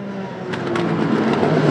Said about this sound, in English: The U.S. has many different types of racing, like these Indy cars